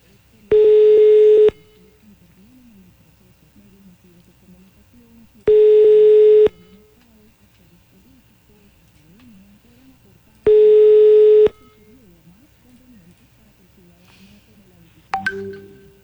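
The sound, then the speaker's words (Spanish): Telephone line tones while a call is being dialed: three steady, loud one-second beeps, spaced about five seconds apart, over a faint background murmur, followed by a sharp click at the end. “Silencio, marcando. Silencio.”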